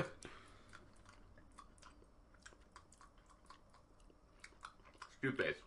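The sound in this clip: Someone chews a blue berry-mint candy, producing many faint, soft clicks and squelches, with brief talk near the end.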